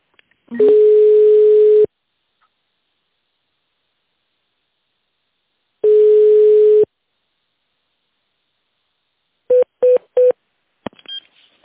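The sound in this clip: Telephone line tones play while a call is transferred to an accounting department: two long, steady, mid-pitched tones separated by a pause, then three short beeps and a few faint clicks.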